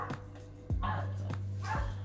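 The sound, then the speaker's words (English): Dogs barking outside at a nearby dog park: a few short, yappy barks at an even pace, fairly faint over a steady low hum. “I have a dog park, and they be having their dogs, they be walking their dogs, playing with their dogs outside. So if you hear barking, that's what that is.”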